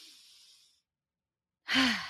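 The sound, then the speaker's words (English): Deep breathing during a guided breathing exercise: a faint, drawn-out breath, then after a silent pause a louder, sighing breath with a low voiced tone that slides downward. “So let's breathe in what was in alignment for us this week and breathe out what was out of alignment for us this week.”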